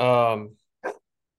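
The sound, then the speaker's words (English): An old, grumpy dog gives one short, sharp bark just after a longer sustained voiced sound, then silence. “Was Melky Barkin? Yeah, he's old and grumpy, dude. He just barks at me now from the top of the stairs.”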